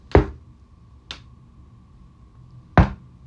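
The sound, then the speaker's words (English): Three sharp knocks made to demonstrate a loud banging like knocking on a closet door, spaced unevenly, the first and last strong and the middle one softer, heard alone without talk. “it was like a knock where it's like I'm knocking”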